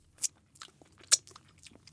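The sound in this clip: Someone bites and chews food coated in real gold. Two sharp, crisp bites stand out, and soft, quiet chewing clicks fill the gaps, all fairly faint with no talking.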